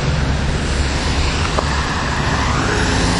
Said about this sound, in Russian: Я перехожу дорогу, тут очень шумно.